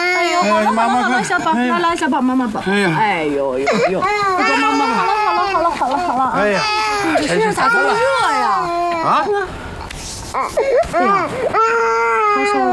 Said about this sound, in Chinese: 来，你干嘛？ 这是哭啊！ 你什么哄也不行。